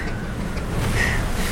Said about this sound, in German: Die Wellen sind doch erstaunlich ruppig.